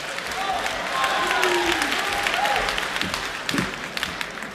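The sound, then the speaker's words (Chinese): A live audience applauds to welcome three performers onto the stage for a traditional crosstalk comedy act, a steady wash of clapping throughout with voices audible over it. “咱们掌声有请三位”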